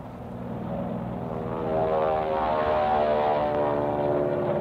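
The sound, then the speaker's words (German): Propeller-engine drone of Spitfire and Mustang fighter planes flying over, a steady, rough hum that swells louder partway through and holds without voices. “Am späten Nachmittag kommen Flugzeuge. Spitfire und Mustangs.”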